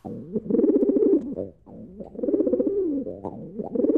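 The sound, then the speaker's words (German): Carrier pigeon cooing: low, throaty coos that roll on in a few phrases, fairly loud and heard alone without any talk. “Hört ihr direkt, ne? Das süße Täubchen hier. So klingt's in Dortmund in den kommenden Tagen.”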